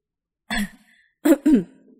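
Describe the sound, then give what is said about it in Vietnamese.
A man's dry throat-clearing cough: one short rasping burst, a pause, then two quick harsh bursts close together, fairly loud and with no talk around it. “Hứa Thanh Tiêu không nhịn được mà ho khan một tiếng”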